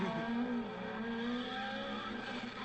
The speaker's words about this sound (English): Lots of drifting.